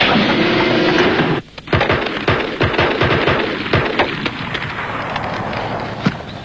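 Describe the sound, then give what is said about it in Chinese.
A gun is fired into the air during police shooting practice, a series of sharp, irregular cracks and pops ringing out over a loud, continuous hiss-like roar that persists throughout. “你们俩干什么？一个不开枪，一个对天开枪。”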